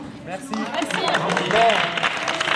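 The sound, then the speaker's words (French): Applause from a group at a university event: clapping swells after a quiet start and holds at a steady level, with voices talking over it. “Vous partez en fait un petit peu trop vite. Ah, vous faites un petit peu, voilà, vous prenez des applaudissements.”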